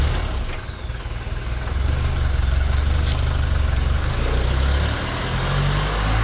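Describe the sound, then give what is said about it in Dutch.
Taxi vans idle at a day-care centre for people with intellectual disabilities at closing time. Their engines give a continuous low, steady rumble with no voices. “En rond sluitingstijd staat het er helemaal vol met dit soort taxibusjes.”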